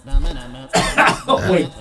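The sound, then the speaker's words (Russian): Coughing from someone who has just choked: a voiced sound comes first, then a few harsh, loud bursts follow close together. “Извините, я же подавился. Это от жадности”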